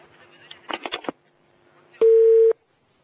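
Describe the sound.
A single steady telephone tone, about half a second long, signals an incoming call on the line. It follows a short burst of voice, and quiet surrounds it.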